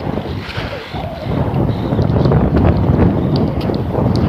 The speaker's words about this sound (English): And head on, face into the wind.